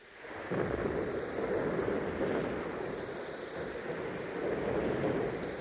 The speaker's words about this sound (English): Hurry up. It's raining. I'm wet.